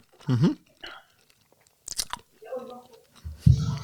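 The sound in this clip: Noisy smacking while eating: a few short, wet mouth smacks and chewing sounds, fairly quiet and separated by pauses, with soft voice sounds in between.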